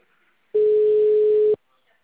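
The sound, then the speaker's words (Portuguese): A telephone tone sounds while calling someone again: a single loud, steady, unbroken beep at one pitch, lasting about a second, with quiet before and after. “Vamos ter que ligar de novo pro Léo.”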